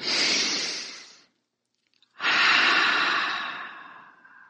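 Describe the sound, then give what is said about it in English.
A deep breath during a guided relaxation exercise: one long airy inhale, a short silent pause, then a longer, softly fading exhale, with no talk. “And now this time, let's take a deep breath and bring in light.”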